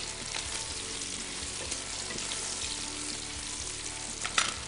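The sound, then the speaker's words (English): Bacon sizzling and frying in a pan, a steady, faint crackling hiss that holds evenly throughout, with a sharper, louder pop near the end. “All right, bacon's almost ready.”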